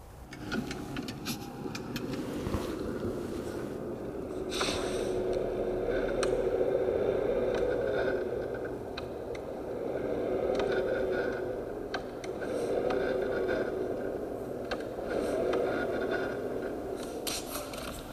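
A car makes a noise when steering left while accelerating under load. A rasping, scraping rub sits over a droning hum that swells and eases several times, with scattered sharp clicks throughout.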